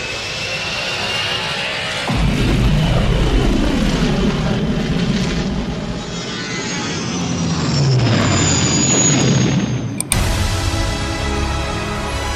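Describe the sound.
Roaring, whooshing spaceship flight in a film space battle scene, with sweeping engine tones that swoop up and down over a heavy, continuous rumble, and a sharp burst near the end.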